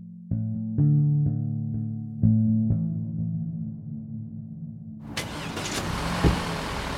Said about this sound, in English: So we're driving through Bucha away from the school